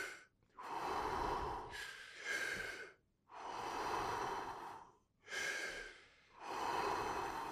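Rapid deep breathing, demonstrated as a forceful breathing exercise: loud, airy breaths alternate in and out in a steady rhythm, each long hissing rush followed by a short pause. No talking.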